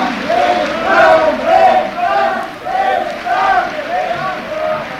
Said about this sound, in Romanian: Auzi, maestre? Așa îl cheamă publicul în fiecare seară.